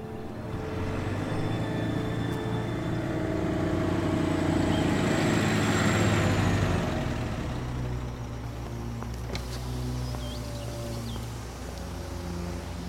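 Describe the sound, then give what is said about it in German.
A truck approaching on a road in a remote area: its engine rumble swells steadily to a peak, then slowly fades as it drives past, with no voices. “Pass auf, da kommt ein LKW.”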